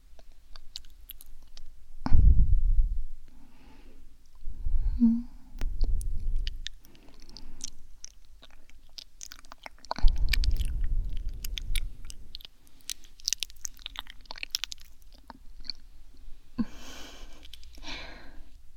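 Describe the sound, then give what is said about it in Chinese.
Wet chewing of pieces of Hami melon comes in several close-up bursts of squelching, crunching mouth sounds separated by quieter gaps, with no talking. “来，快点，哈密瓜还剩了几块，都得乖乖吃完哦。”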